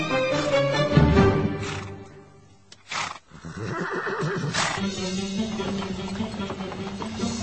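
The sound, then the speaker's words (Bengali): A horse lets out a loud whinny near the start, over continuous rumbling and clatter from a horse-drawn carriage with its wheels and hooves on a stone road. A short, sharp burst of noise breaks in midway. “চাকার আওয়াজ এবং পাথরের রাস্তার উপর দিয়ে ঘোড়ার নালের শব্দ ভেসে এল।”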